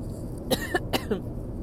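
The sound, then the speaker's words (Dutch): Coughing from someone who has choked on something mid-sentence, four short, sharp coughs in quick succession. “Sorry, ik verslik me.”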